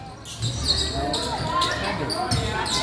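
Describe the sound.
A basketball dribbled at the top of the key during a basketball game, a few dull bounces standing out over steady crowd noise.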